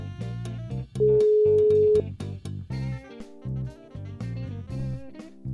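Outgoing telephone call ringing: a single steady ring tone lasting about a second, sounding loudly over rhythmic music that carries on throughout.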